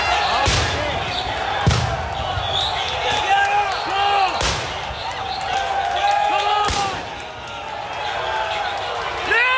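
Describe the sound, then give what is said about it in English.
Police flashbangs and smoke bombs go off at a downtown Portland protest between right-wing groups and counter-protesters: four sharp, booming bangs spaced seconds apart over constant crowd noise and voices. “downtown Portland echoed with flashbangs and smoke bombs thrown by police during a protest by two right-wing groups and counter-protesters.”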